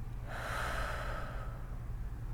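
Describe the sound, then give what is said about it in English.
A long, deep breath swells into a soft, airy rush and then fades out. A faint low hum runs underneath. “Let's take 3 deep breaths together. In and out.”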